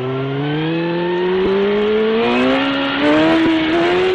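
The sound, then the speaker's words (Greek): Car engine speeding and accelerating, a loud continuous roar whose pitch climbs steadily throughout, with no voices over it. “Κόψε ταχύτητα, θα μας γράψουν. Έλα ρε, με 100 πάμε.”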